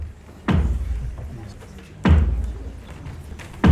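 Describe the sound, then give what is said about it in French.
Three heavy knocks strike slowly and evenly to announce the start of a play at a school festival, each one a loud, deep thud that fades before the next. “Soudain, les trois coups retentissent.”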